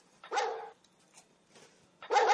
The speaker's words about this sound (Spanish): Eso es, el perro indica estreno.